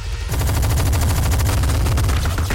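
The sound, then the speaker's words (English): Gatling guns and small arms fire together in an action scene, a dense, loud, continuous rattle of rapid shots that starts after a brief quieter moment and keeps pounding without pause. “Three Gatling guns and more small arms lacerate the level from across the corridor as Dredd runs for his life.”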